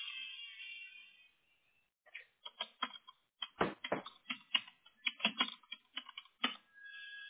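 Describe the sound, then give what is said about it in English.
Typing on a computer keyboard, entering text into a form field: many quick, irregular key clicks with short pauses between bursts, no voices. “It X's it out as I type it in there.”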